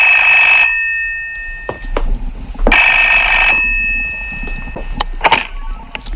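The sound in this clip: A telephone rings in two loud, bright bursts separated by a pause, with a few sharp clicks and knocks in between and afterward.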